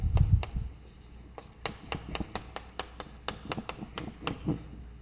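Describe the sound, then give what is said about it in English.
Writing on a board during a lecture on action functionals: a series of short, scratchy strokes and taps of varying loudness, with a few soft low knocks at the start. “And I just want to write down that action functional, which is”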